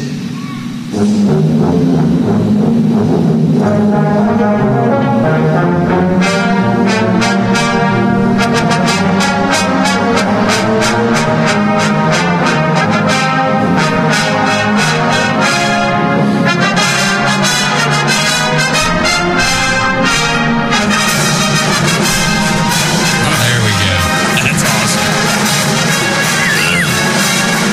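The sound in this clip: Full band plays with all sections together, including a percussion section of snare drums, bass drums, cymbals and tenors, for nearly half a minute of loud, continuous music with a steady driving beat and dense layered harmony.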